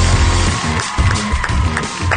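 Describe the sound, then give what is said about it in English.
Audience applause and cheering as a baseball icon is introduced at an event: mixed crowd noise with whoops and scattered clapping rising and dipping over a low, droning rumble. “Thank you for that tremendous round of applause.”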